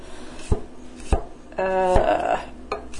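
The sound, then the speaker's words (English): A knife chops food by hand in a home kitchen with an irregular, sloppy rhythm. A few sharp, separate knocks land on the board, and a brief tonal scraping rasp sounds between the later strikes. “As I said, irregular chopping is the great luxury of the home cook, and you should indulge in it at all times.”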